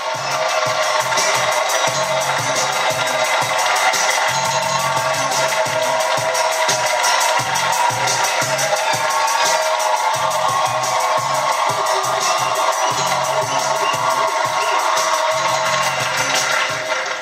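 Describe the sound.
An audience cheers to welcome a poet on stage, a dense, steady roar of crowd noise that holds at an even level throughout.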